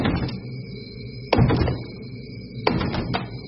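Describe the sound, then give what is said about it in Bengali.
Someone pushes a closed door that does not open, making two brief clusters of dull thumps and rattles over a steady faint background tone. “ঠেললো, দরজাটা খুলল না।”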